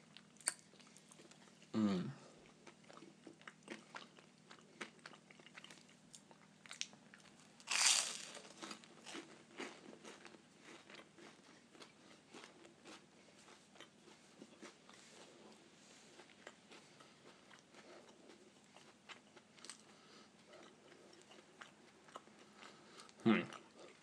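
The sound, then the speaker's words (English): Crunchy, velvety cheese being chewed, with faint irregular crunching and soft mouth sounds throughout and a few louder crunches standing out now and then. “Well, I shall spare you the rest of the crunching.”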